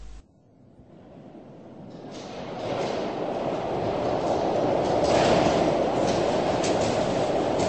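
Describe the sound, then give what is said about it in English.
A New York subway train gives a rumbling, rattling roar that builds steadily from quiet to a loud, sustained din, with no one talking. “Nine a.m. on a New York subway.”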